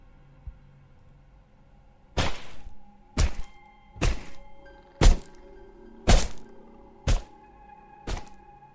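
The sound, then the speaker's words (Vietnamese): A wooden cane struck down hard on a person: seven sharp, heavy whacks landing at an even pace about a second apart, each a loud crack with a short woody ring. “giật lấy cây hèo của thằng Tí đang cầm ở trên tay. Rồi sau đó nó giơ lên cao, đập thẳng tay xuống.”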